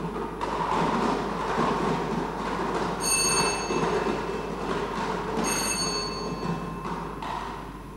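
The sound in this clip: A lottery number drum being spun during a prize draw makes a continuous rumbling rattle for several seconds, with two brief high metallic rings partway through.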